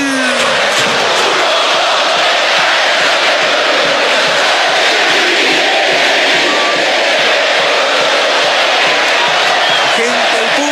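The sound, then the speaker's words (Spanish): A stadium crowd chants loudly at Colo-Colo's Estadio Monumental during a night football match against Audax Italiano. The dense, roaring chorus holds steady and unbroken for the whole stretch. “Se prende la gente, Germán, escuchemos el público, escuchemos cómo habla el Monumental a Camacul.”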